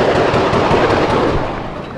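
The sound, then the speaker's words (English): AK-47 rifle fire as a sound effect: loud, sharp shots packed into a dense, rattling volley that eases slightly toward the end. “gunmen entered the building, shooting AK-47s, going floor to floor, killing people”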